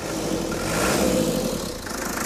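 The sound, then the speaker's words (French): A car engine fitted with a turbo of unknown origin fires on the first turn of the starter and runs with a steady, rough, mid-pitched idle that swells slightly in revs midway, with no talk. “je suis sûr qu'il démarrera du premier coup. Il y a quelques boutons en plus, un coup de démarreur.”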